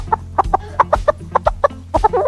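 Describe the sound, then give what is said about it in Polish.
Hens clucking on a poultry farm holding about 3,000 birds, with many short, clipped clucks in quick irregular bursts, overlapping toward the end. “I oczywiście 3000 kur tutaj obok nas było, którym też bardzo dziękuję.”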